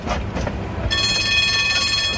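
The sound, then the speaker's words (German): A tram moving on rails: low rumbling rail noise with a few dull knocks, then a steady high-pitched whine with squealing overtones sets in and holds above the continuous rumble. “Die Klasse machte sich auf den Weg. Sie stiegen in das Tram Nummer 8 ein.”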